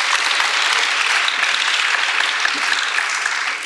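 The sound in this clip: An audience applauds to welcome a guest artist at an exhibition event, with dense, steady clapping throughout that thins slightly at the very end.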